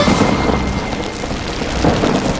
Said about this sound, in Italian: Piove, senti come piove, Madonna come piove, senti come viene giù.